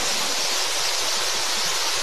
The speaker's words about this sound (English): Now releasing the steam brake, gently opening the regulator, actuating steam, steam chest pressure just coming up,